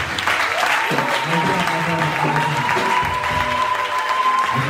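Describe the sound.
A church audience applauds steadily and densely throughout, a continuous patter of clapping with sustained tones and voices mingled beneath it.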